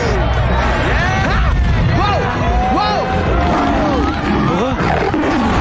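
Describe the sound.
Lions roar in an animated film scene: several drawn-out calls rise and fall in pitch, layered over continuous crowd-like noise and voices.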